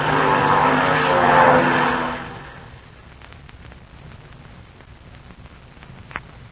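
Aircraft engine roar from a plane flying toward the listeners, loud and steady for about two seconds before quickly falling away, leaving faint crackling and scattered clicks over a low background hum.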